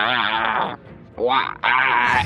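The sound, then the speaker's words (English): A voice imitates a mechanical groan from something unseen during a tabletop fantasy game session: a buzzy, drawn-out vocal drone that breaks off, then returns in two more strained stretches. “Yeah, you don't see anything, but you do hear another mechanical groan like,”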